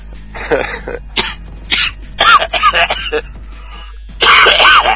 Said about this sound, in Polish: Tak słychać jak kaszle.